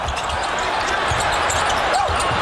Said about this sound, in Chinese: 小川非常奋力去抢这个篮板球落点，争球，争球转换球权呢，还是上海队球权。